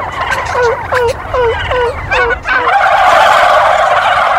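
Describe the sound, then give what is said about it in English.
A hunter imitates a female turkey with a series of short, sharp yelping calls, each dropping quickly in pitch, followed by a burst of loud, rough noise. “Let's try that one more time. A female turkey, they're going to really get turned on by this.”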